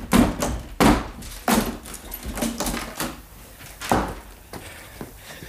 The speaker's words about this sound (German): wir müssen die Türe einschlagen.